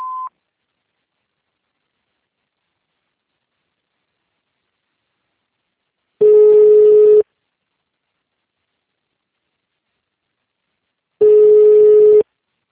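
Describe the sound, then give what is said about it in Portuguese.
A telephone signal tone after an automated answering menu: one brief beep, then two long, steady mid-pitched tones several seconds apart, with silence between them. “Após o sinal, digite o ramal ou aguarde.”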